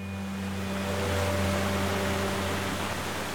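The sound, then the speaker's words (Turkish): Rushing water roars steadily where a very clear river pours 12 metres down over a large granite rock that forms a natural slide; the sound is a dense, even hiss with no pauses. “Nehir burada büyük bir granit kayanın üstünden 12 metre aşağı dökülürken doğal bir kaydırak meydana getirir. Su çok temiz.”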